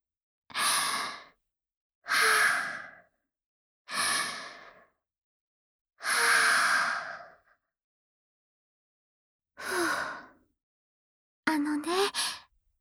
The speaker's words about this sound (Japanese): ちょっと深呼吸するから待っててね。